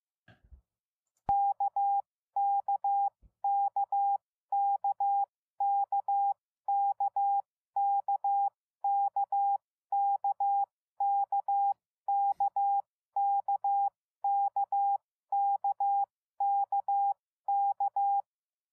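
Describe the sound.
Morse code letter K sent as a clean, steady beeping tone, the same short pattern repeated more than a dozen times in an even rhythm with brief silent gaps between groups.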